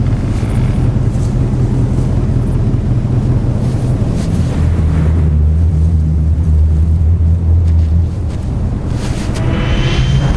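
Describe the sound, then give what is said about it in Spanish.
The Aerostar, a Terminator scout aircraft, flies past with a loud, continuous roar over a deep, steady drone that shifts slightly in tone midway and thins out near the end. “¡Aerostar! ¡Es un explorador de los Terminators! ¡Acelera!”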